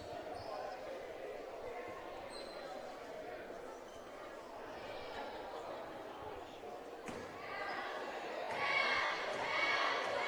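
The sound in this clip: A basketball is dribbled at the free-throw line before a foul shot in a game, with a few bounces amid crowd murmur and a commentator's voice. The crowd noise grows louder toward the end.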